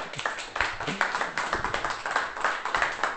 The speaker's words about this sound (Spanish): Ya aplauden nomás, no hay problema.